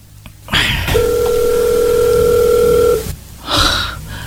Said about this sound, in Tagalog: Nag-ring na.